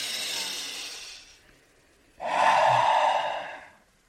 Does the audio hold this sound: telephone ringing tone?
no